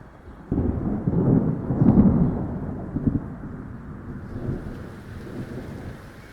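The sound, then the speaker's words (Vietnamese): A loud, deep thunderclap rolls and rumbles for a few seconds, then rain begins to fall as a steady, softer hiss. “Sau tiếng sấm đậm rung chuyển cả trời đất, trời bắt đầu đổ mưa.”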